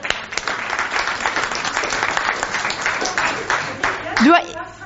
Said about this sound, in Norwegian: nå kan dere klappe.